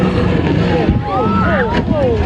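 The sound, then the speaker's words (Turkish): A jet ski speeds across the sea off the Vancouver coast in Canada. Its engine makes a continuous rushing roar mixed with wind and water noise, steady in loudness throughout. “Deniz motoruyla son hız ilerliyordu.”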